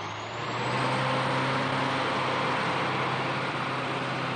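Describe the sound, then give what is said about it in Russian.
An orange tractor-unit truck pulls away from a stop as the driver hits the gas. Its engine builds to a loud, steady roar, and a faint high whine climbs in pitch early on. “Хачикян жмет на газ.”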